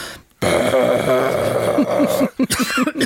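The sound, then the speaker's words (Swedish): A vocal growl made with the false vocal folds: a rough, gritty throat rasp held for about two seconds, then breaking into a few short, coughing bursts. “Vi har ju ovanför de vanliga stämbanden så har vi två små veck som heter falska stämband. Och det är de man growlar med. Jag börjar alltid hosta när jag growlar, men det låter lite så här.”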